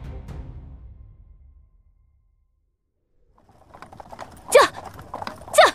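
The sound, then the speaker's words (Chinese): Horse hooves clip-clop as a horse-drawn carriage hurries along a street. After a low rumble and a quiet gap, a few sharp, loud clops come near the end. “载着弟子元的马车在驶离北秦暗卫围追阻截的街道后急速朝师府而去。”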